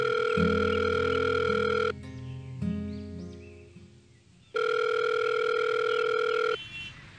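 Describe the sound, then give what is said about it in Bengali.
Telephone ringback tone as an outgoing call is placed: two long, steady electronic tone bursts separated by a gap, with a quieter, murkier sound filling the pause between them. “শেষে বিকেল চারটে নাগাদ Rimi phone করল নিলয়কে”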